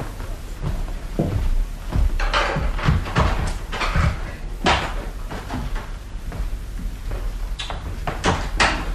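A door is opened for a visitor. There are a series of wooden clunks, knocks and rattles spread across several seconds, including a few sharper thumps and soft shuffling movement in between.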